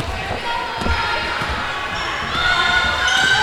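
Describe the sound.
A basketball dribbled on the court during a women's basketball game, giving a steady run of dull low thumps about every half second under crowd noise and shoe squeaks.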